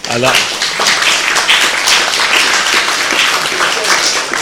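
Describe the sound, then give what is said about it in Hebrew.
Audience applause at a gathering, given as thanks to two people, a loud, continuous patter of many hands clapping, with a voice briefly heard at the very start. “אני רוצה בזאת להודות בשם כולנו כאן, לרב ארי שבט, לצוראל חלמיש, מגיע להם גם מה שקוראים מחיאות כפיים”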